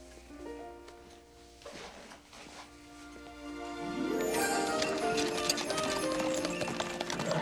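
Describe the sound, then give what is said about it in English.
A horse's hooves clip-clop at a steady, quick rhythm as the horse is pulled to a stop. Midway through, a dense, louder swell of sound rises and covers the hoofbeats. “pulls the horse to a stop.”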